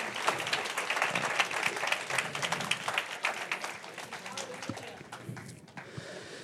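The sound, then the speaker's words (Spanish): An audience applauds during a church service, a dense, steady clapping that runs the whole way through and thins a little toward the end, with some voices mixed in. “Un aplauso para Ian que aguantó ahí arriba.”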